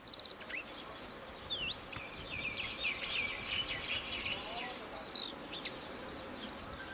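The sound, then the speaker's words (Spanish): A Radde's accentor (Prunella ocularis) sings faintly in clusters of short, soft, high notes that come in quick, accelerating bursts over a low background hiss. “Ahí se le oye bajito, pero está. Está cantando el acentor de Rat.”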